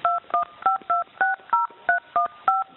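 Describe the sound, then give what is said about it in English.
Nine telephone keypad tones as a PIN is entered on an automated collect-call line, each a short dual-pitched beep in an even, steady sequence with no voices. “To make a collect call, dial 0. Please enter your 11-digit PIN number at the top.”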